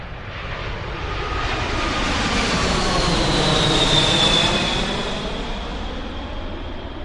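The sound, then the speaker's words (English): A passing aircraft sends out a loud, broad roar that swells to a peak and then eases off, with a thin whining tone riding on top and sliding slightly downward as it goes by. “if you've lived near an airport, you know only too well that aircraft are really noisy.”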